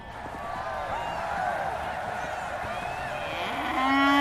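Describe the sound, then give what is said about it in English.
A bull moos in an arena at a jousting event. It gives a long, drawn-out bellow with a wavering, harmonic tone that swells louder toward the end. “Now wait, what's this? A bull has walked into the arena.”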